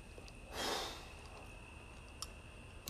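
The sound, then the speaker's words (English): One deep breath, a soft airy rush lasting about half a second, faint against the quiet, followed by stillness and a couple of small clicks. “So if you breathe enough, deep like that,”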